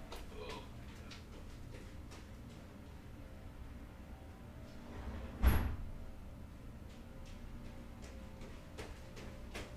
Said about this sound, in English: Let me just go shut the door.